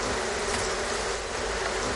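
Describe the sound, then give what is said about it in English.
Honeybees buzz around beehives kept by a beekeeper, forming a dense, steady, even hum with no breaks and no voices. “Bees make honey in their homes, known as hives, and beekeepers make money selling that honey.”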